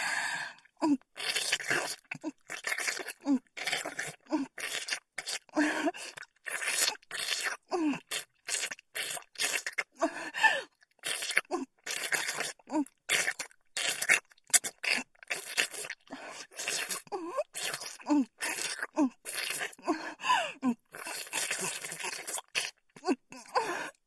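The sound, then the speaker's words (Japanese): Wet licking sounds repeat many times in an irregular rhythm: soft smacks, slurps and sticky clicks with brief pauses between them and no talk. “この調子でもっと舐めまくってあげる。”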